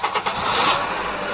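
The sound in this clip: A car engine starting: a couple of quick cranking pulses, then the motor catches and settles into a steady running roar, all within a second or so.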